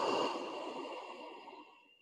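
Deep breathing during a yoga sequence on a mat: a single long, airy exhale that starts fairly strong and gradually fades over about two seconds, with no talking.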